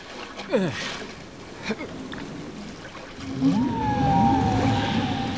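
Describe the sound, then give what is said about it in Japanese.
Whale song rises from the sea beneath a boat as drawn-out, sweeping moans that glide up and down, ending in a long, steady high tone over a wash of water noise. “クジラの歌が始まったわ。素敵だわ。”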